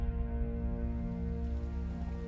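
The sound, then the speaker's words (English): Steady rain patters down at a castle drawbridge: a continuous, even hiss with no single drops standing out, heard alone with no voices. “Rain patters down as a physician hurries over the drawbridge.”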